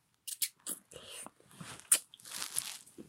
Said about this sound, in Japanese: こんな飴一つで開けるの手こずってる人なかなかいないって。あ、開いた。キャラメル味です。